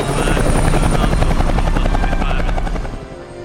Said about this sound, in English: The helicopters fly away.